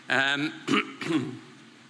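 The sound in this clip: Throat clearing from a nervous speaker at the start of a talk: a few gruff, voiced bursts, the first longest and most tonal, then fading to quiet.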